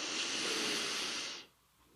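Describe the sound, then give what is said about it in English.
A slow, deep breath drawn in during a guided breathing exercise, a soft, steady airy hiss lasting over a second before it stops. “take one deep breath together. You ready? We'll inhale”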